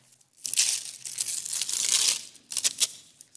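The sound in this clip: Paper crinkling and tearing as a small wrapped gift box is slowly unwrapped: one long rustling stretch of crumpling wrapping paper, a brief pause, then a shorter crackling burst.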